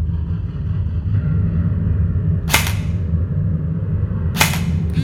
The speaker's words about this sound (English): He put on the shock belt and picked up a Mach M4 assault rifle. I'm going to call that a foe, so I'm going to shoot.